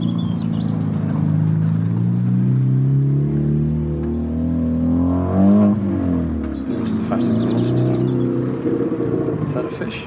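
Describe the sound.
A car engine in a car park gives a steady, loud low rumble that holds throughout, with people talking over it.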